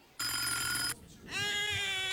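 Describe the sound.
A telephone rings in two loud, sustained bursts with a short quiet gap between them. The second burst has a brighter, more tonal ring.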